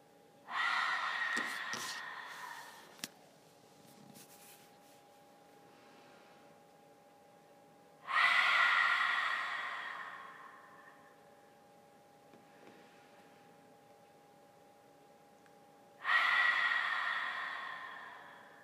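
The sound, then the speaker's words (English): Deep breaths released through an open mouth during a yoga class: three long, breathy sighs spaced evenly apart, each swelling loud and trailing off slowly over a steady, low droning hum. “Take a deep inhalation, open the mouth, and let it go.”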